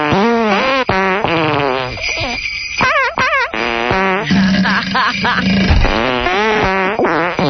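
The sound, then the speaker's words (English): Fart sound effects strung together as a little Christmas song: buzzy, wobbling blasts with bending pitch follow one another almost without a break, loud throughout. “All farts, actual elf farts.”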